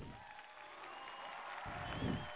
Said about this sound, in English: All right, that's what's up. I'll throw some applause on that.